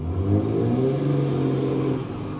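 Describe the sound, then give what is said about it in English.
Car engines rev outside, heard from inside a parked car. The sound is a continuous low rumble with a droning harmonic whine that holds steady and then eases slightly, with no talk. “sorry for that noise. I'm actually doing this devotional in my car. People are just rearing their engines up everywhere.”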